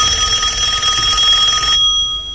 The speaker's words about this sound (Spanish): De pronto, el timbre del teléfono lo sacó de sus pensamientos.